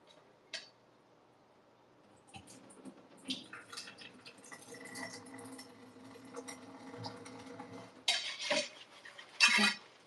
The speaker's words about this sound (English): Careful. I dropped like 4 noodles. This is so sad. Do you guys drain it all the way or do you leave like a little bit left?